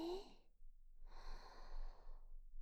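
Deep human breathing, two soft airy breaths: a brief one first, then a longer, drawn-out breath, faint and unhurried with no talking.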